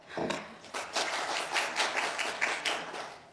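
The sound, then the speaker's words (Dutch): A small, brief round of applause breaks out at a council committee meeting as a few people clap together for a few seconds. “Ik zie instemmend geklik. Meestal komt er dan een klein applausje.”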